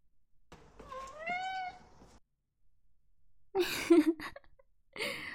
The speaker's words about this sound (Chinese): 是啊，叫的可大声了，可能因为基因问题吧，就是白毛蓝眼睛的猫大多都听不见。